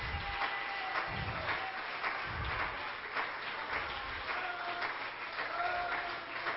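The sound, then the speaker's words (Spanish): Church audience applauding during a worship service, a sustained and even patter of many hands that stays fairly faint and steady throughout. “Denle un aplauso a Cristo, que Él se lo merece. Aplauda con ganas, con ánimo.”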